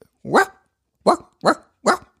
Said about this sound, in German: Woran erkennst du, dass dieser Hund traurig ist? Stimmlage. Also, der Hund bellt.